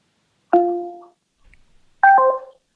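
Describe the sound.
A smart speaker ending a phone call sounds two short electronic tones, the second brighter and richer, separated by a quiet gap, with no voices.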